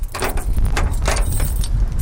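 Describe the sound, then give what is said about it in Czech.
A bunch of keys jangles steadily as a parish priest carries them to a chapel door on a windy hilltop. Continuous bright metallic jingling sits over a low, gusty wind rumble, with no talk. “Místní farář vzal svazek klíčů a ke kapli se ochotně vydal spolu s Jarkou Vykoupilovou.”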